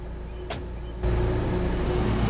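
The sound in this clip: A car's engine rumbles low and steady, then grows noticeably louder after about a second and holds that level to the end.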